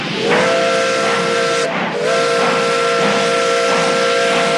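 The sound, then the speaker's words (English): Steam whistle and hissing steam as a train pulls into a busy wartime freight depot: a loud, sustained, shrill whistle that slides up at its onset, breaks off briefly, then resumes over constant hiss. “Now, at a busy train depot, workers unload crates as armed German soldiers patrol the top freight cars. A train pulls in.”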